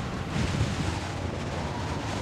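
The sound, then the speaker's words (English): A strong gust of wind over the ruins of a tower: a broad, rushing roar that stays fairly even and moderately quiet throughout, with no voices. “As if to confirm it, a strong gust of wind erodes the statue into mere flakes of ash.”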